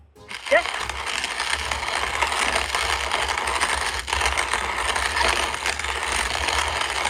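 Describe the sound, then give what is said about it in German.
A hand-operated coffee grinder rasps and crunches continuously, a steady, gritty ratcheting grind that runs without pause for several seconds after a brief click at the start. “Eine handbetriebene Kaffeemühle. Jawohl, Frau Koch.”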